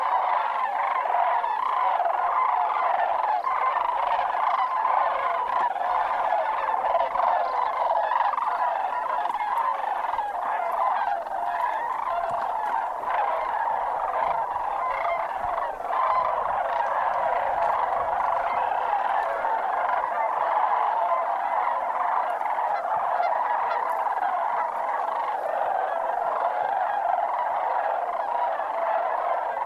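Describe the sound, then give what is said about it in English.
Greater sandhill cranes call in flight at a wetland basin, a dense, continuous chorus of rolling, trumpeting calls from many birds that stays steady and loud throughout the half minute. “The Sandhill Crane audio was recorded by Jeff Reynolds in 2018 at Hart's Basin.”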